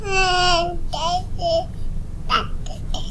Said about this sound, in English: Then at 4 to 6 months, they start what is known as vocal play. So this is adding lots of different sounds, adding some consonants like g and k, ma, pa, right?